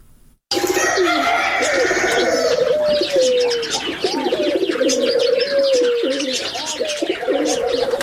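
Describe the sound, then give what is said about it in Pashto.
Birds calling in a bird zoo in Uruzgan province, with pigeons cooing among a dense, continuous mix of chirps and calls that starts abruptly after a short silence. “نو موړی په د ژوبڼ کې لسګونه ډول مرغان لري چې هر ورځ لیدو ته ګڼ کسان ورځي.”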